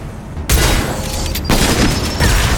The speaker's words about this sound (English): Ouch! Rocket launcher in the face.